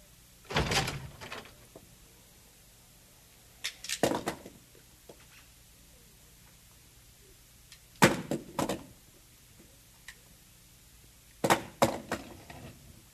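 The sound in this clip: A wooden door being opened: four separate clusters of short, sharp knocks and clunks, each group a few quick hits, with quiet stretches between them.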